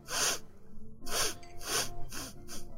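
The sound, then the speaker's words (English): A voice imitates a creature sniffing a cloak: one breathy, snorting sniff, then after a pause a quicker series of similar sharp sniffs and snorts. “Bok Bok, stop sniffing customers.”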